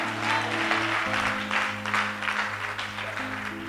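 Congregation applauding during a church service, a steady wash of clapping over sustained keyboard tones.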